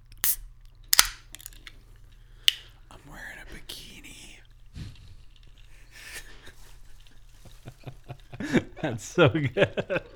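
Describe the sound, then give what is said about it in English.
A can of Mountain Dew is opened: a few sharp clicks and a brief hiss stand out against quiet whispery noise, and voices start talking near the end. “Well, now we got the Mountain Dew. Oh, let's try it. A little ASMR can opening here.”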